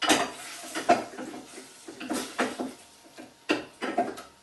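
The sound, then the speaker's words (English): Garlic going into meat in a pan while a tagine is cooked, marked by a few scattered clinks and scrapes of a utensil against cookware between quieter pauses. “Now to my meat, I'm going to add my garlic. So I'm going to put the garlic in with the meat.”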